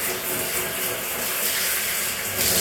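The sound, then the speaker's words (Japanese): Tap water runs at home while someone washes their face with soap. The stream makes a steady, even rushing splash that continues for a few seconds without any talk. “はい、ついでに顔も、顔も洗い。石鹸しかないけ、うち。石鹸で洗い。”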